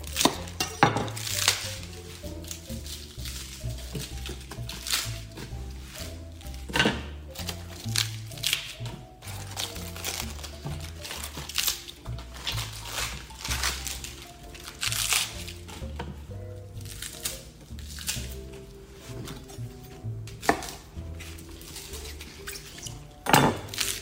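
Clattering and handling sounds from romaine lettuce hearts being torn into a bowl: many short, uneven crisp bursts over a steady tonal background, with no talking.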